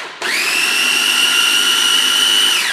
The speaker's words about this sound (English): I take the tomatoes, these are cherry tomatoes, and I cut them in half so that they start to burst as they cook in the oil with the garlic and a little salt and pepper, and I put in a little food processor.